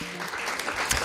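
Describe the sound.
Canned applause sound effect played in a Danish radio studio: a short burst of dense, steady crowd clapping, even in level throughout.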